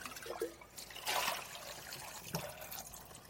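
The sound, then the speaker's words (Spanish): Faint running water flows from a tap as a glass jar is washed under it, with soft trickling and splashing and one brief louder gush partway through. “Así que vamos a lavar el frasco”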